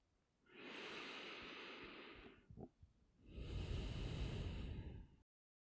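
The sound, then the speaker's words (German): Slow breathing during a German-language guided meditation: one long, soft, airy inhale, a brief pause, then a long exhale, quiet and unhurried with no talk. “Atme mit mir ein und aus.”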